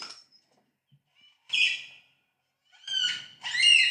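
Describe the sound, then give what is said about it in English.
Rosella parrot calls come as a few bright, high chirping bursts separated by short silences, the last two louder and more rapid, with no voices. “That sounds like a Rosella.”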